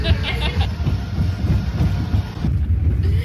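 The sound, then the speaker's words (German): Roller coaster ride heard from the rear car, a loud continuous rumble of wheels on track with rhythmic clattering and rushing wind buffeting throughout. “Wir sind extra ganz hinten eingestiegen, damit die Fahrt so schnell wie möglich ist, weil Achterbahnen sind hinten am schnellsten, hat uns der Simon verraten.”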